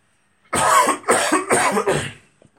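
Four harsh, rasping coughs in quick succession from someone with something stuck in the throat, loud and alone, with short gaps between them.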